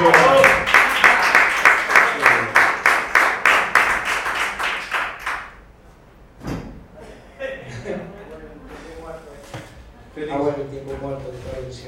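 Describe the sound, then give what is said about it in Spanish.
An audience applauds in loud, rhythmic clapping for about five seconds before it stops, and people then talk. “Un aplauso para Félix.”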